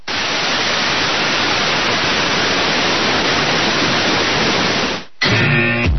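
Loud, steady white noise hisses evenly for about five seconds, then cuts out briefly before a different buzzy, tonal sound takes over.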